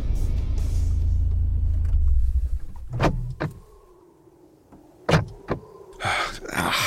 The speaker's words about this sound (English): I pulled into the gas station and up to a pump close to the road.